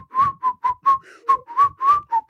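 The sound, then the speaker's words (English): A person whistles while breathing in, producing a series of short whistled notes at a fairly steady middle pitch, separated by brief gaps in an uneven rhythm. “I can whistle better breathing in than I can blowing out.”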